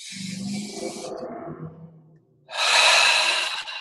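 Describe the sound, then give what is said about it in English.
A deep breath in and out during a guided relaxation exercise: a breathy inhale, then a loud, long rushing exhale, with no talking. “Breathe in again. Full deep breath and relax.”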